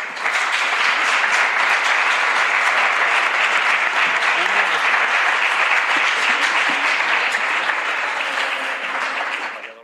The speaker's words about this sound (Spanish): Valladolid Paso a Paso, para los cuales pido un aplauso